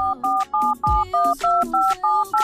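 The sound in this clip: Telephone keypad tones as a phone call comes in: a quick, steady run of many short, two-pitched beeps with brief gaps, plus one dull low thump partway through.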